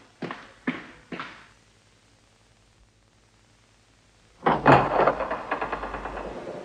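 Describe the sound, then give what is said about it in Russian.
Three sharp knocks strike an apartment door in quick succession. After a quiet pause comes a louder rattling clatter that fades out in a few pulses. “Я очнулась, когда раздался стук в дверь нашей квартиры. Кто бы это мог быть?”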